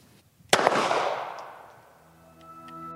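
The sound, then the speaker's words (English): A single sharp gunshot from a handgun with a loaded magazine: one loud, abrupt bang followed by a long, gradually fading ringing tail. “You would insert the magazine. You would direct the slide. And fire the weapon.”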